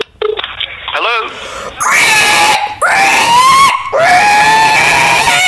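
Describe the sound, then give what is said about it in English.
A person's voice imitates a pig squealing into a microphone: loud, shrill, sustained squeals in a series of long bursts with short breaks, the first wavering in pitch, all alone without talk. “Should I hold up to this microphone? Sure. So I'm just going to start squealing.”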